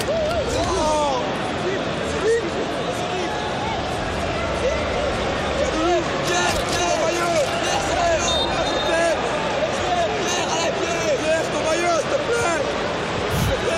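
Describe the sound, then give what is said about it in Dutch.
Football supporters call out to a player for his shirt during a preseason friendly between Standard Liège and Juventus: a dense, continuous babble of many voices that stays steady throughout, with a person talking over it. “En u hoort de supporters die aan Pierre Kaloulou zijn truitje vragen.”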